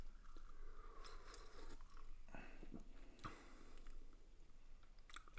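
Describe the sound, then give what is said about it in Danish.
Quiet chewing and crunching as food is tasted, with scattered crisp bites and wet mouth sounds over several seconds, and no talk. “vi smager lige på den her også.”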